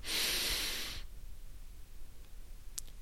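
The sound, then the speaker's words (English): A deep inhale is taken through the nose or mouth, a strong airy rush lasting about a second that stops sharply. Near-quiet follows, broken only by a faint click. “Close your eyes and take two slow, deep breaths. Taking a large inhale.”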